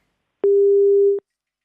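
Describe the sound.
A telephone busy tone sounds after a call is cut off: a single steady, mid-pitched beep lasting under a second, clear and alone in silence.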